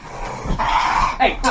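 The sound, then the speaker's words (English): Dog growling and whining while being sent into its kennel: a continuous run of low, rough growls broken by a few sharper yelps. The sound is fairly loud and close-sounding throughout. “I already have two doggos. Okay, now you're gonna have to go in your kennel,”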